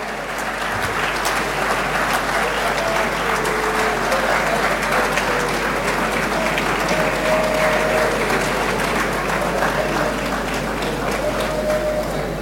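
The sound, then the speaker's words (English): An audience applauds at a college ceremony with steady, loud clapping that holds at an even level from start to finish. “Shall we please applaud them?”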